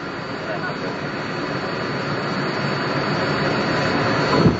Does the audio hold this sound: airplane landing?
yes